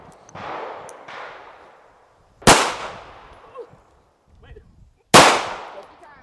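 Four handgun shots fired at a silhouette target: sharp, loud cracks spaced irregularly, the first two softer and the last two louder and harsher, each followed by a brief decay.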